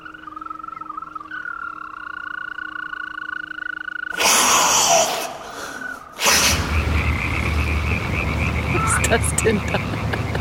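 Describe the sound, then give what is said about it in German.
Many frogs and toads croak in a steady, trilling chorus that holds an even pitch. Louder rushing noise later swamps the calls. “sind so viele Kröten und Fröschchen heute. Das ist unglaublich. Das war hier noch nie so.”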